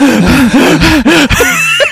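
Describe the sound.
A person imitates racing breath with a rapid run of loud, voiced gasps and pants, short breathy bursts with wavering pitch.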